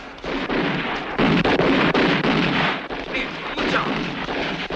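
Gunfire from pistols as the mafia shoots at a 1944 political rally in Villalba, Sicily: a loud, dense, unbroken crackle of many overlapping shots that keeps going throughout.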